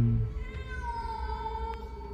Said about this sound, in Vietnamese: là một con mèo kêu lên một cách giận dữ khi khuôn mặt của tôi vừa thò vào chỗ nó đang ẩn nấp.